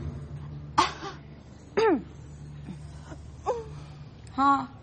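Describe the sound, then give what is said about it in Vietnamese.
Voiced, throaty coughs as people take turns imitating a man's cough. A few short, loud bursts with a tonal vocal edge are spaced by brief pauses. “Ho đàn ông ho nè, nghe người ta ho nè.”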